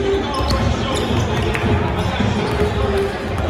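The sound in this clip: A basketball bounces repeatedly during a game, dull thumps recurring under steady crowd noise while people talk over it.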